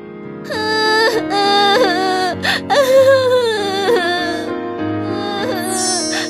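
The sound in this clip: A boy crying loudly in drawn-out, wavering wails, with several sobbing breaks and pitch swings across the few seconds.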